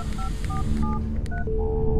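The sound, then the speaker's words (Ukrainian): Keypad tones of a mobile phone being dialed: four quick dual-tone beeps in a brisk rhythm, followed by a longer steady tone, over a low background hum. “Командир, дай звякнуть на землю. Міжпланетна мобіла тільки в мене. Та дай малу на хвильку набрати.”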